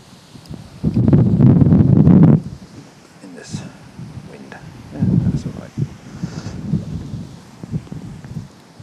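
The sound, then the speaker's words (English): Wind buffeting an outdoor microphone while a camera tripod is set up: low, rumbling gusts with one heavy burst early on, then weaker, uneven surges and quieter stretches between them. “Big apologies if all you can hear now is the wind.”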